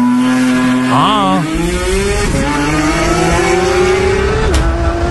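Porsche sports car engine revving: a loud, steady harmonic engine tone whose pitch edges gradually upward, broken by two brief dips and recoveries that sound like gear changes.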